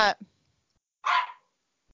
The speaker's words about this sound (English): what's she doing? What's she barking at?